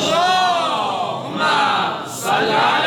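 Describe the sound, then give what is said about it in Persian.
A crowd chanting salawat, a loud Islamic blessing, with many voices joined in a sustained, powerful swell that dips briefly and then surges back to full strength. “اون بیت قبلی یه صلوات خوشگل و بلند داشت،”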